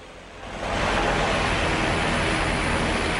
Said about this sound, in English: His smile fades as the aircraft nears and shows it has bared teeth painted on the nose cone. The plane passes them.